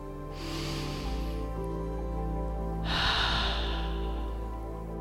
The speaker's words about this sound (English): take a nice breath through the nose and exhale slowly through your mouth to find focus.